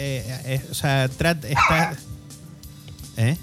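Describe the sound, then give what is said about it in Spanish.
A dog barks in a few short, sharp, high-pitched bursts with a brief whine at the end. A harsher, noisier burst comes in the middle. “el perro no es nuestro”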